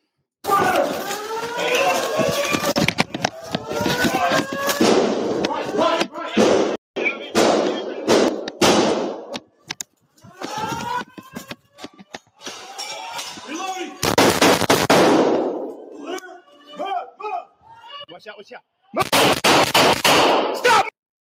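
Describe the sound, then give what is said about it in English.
Gunshots are fired from a second-floor window at responding police: many sharp, loud bangs in irregular bursts and volleys, separated by short gaps, with voices and shouting mixed in between the shots. “Now you can hear the shooter. She's shooting out the second floor window at the cops that are responding.”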